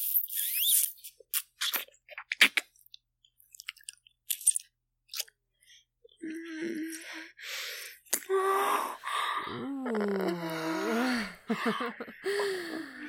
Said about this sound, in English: That was quite the groan, sire.